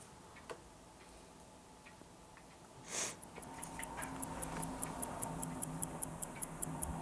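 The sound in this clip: A mechanical skeletonized clock movement ticks after its hands are fitted. A faint click and a brief soft rustle come first, then a regular, fairly quick series of sharp ticks begins and grows crisper as it continues.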